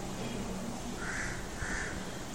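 A crow caws outside, giving two short, rough caws in quick succession over a steady background hiss.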